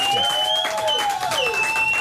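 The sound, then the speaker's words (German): An audience on the roof terrace of the Goethe-Institut in Istanbul applauds, moderately loud and steady, while sustained tones ring over the clapping. “Sie kriegen hier den größten Applaus, den es in den 4 Tagen gab,”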